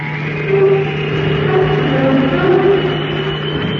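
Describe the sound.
A spacecraft motor during a moon landing gives a steady, low engine drone, a continuous humming roar that holds level throughout with no voices.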